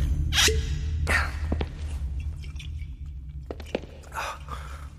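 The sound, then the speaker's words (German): Someone takes a sip of whisky, heard as a few breathy slurps and faint wet mouth clicks with soft exhalations in between, fairly close and without speech. “Nimm einen Schluck Whisky. Das beruhigt die Nerven. Gib her.”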